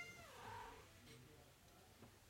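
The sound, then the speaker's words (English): A pet cat gives a single faint, drawn-out meow that bends in pitch, followed by low background noise and no clear speech. “I had to grab my cat.”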